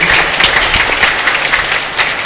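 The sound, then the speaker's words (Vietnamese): A church audience in a parish gives a round of applause to thank the priest, a brisk, moderately loud spatter of many hands clapping that keeps going steadily with small surges. “Chúng ta cảm ơn cha bằng tràng vỗ tay.”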